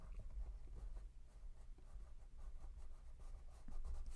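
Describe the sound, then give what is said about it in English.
Faint scratching of writing on paper as a colour name is written down, in short irregular strokes. “I'm just going to write down the names for this round. The name, yeah, write down the name. Yeah, yellow. It's very bright. You go. All right, right now I'm going to write down brown.”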